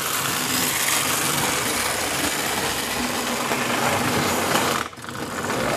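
An old electric model train locomotive runs on 16-volt power, giving a steady whirring motor hum with a dense mechanical rattle. The sound dips and wavers briefly near the end.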